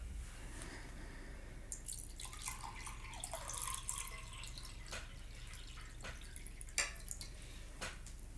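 Water is poured from an IKEA pitcher as a faint, brief trickle, followed by a few soft drips.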